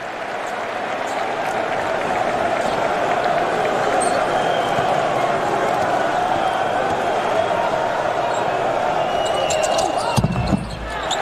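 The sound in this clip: Basketball bouncing during free throws in a professional game involving Olympiacos, buried under a steady roar of crowd noise and an excited commentator's voice, with a brief burst of sound near the end.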